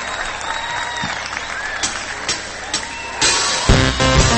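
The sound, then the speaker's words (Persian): An audience applauds, with many hands clapping in a dense patter. The applause grows louder and fuller toward the end. “یه دست خیلی خیلی محکم بزن”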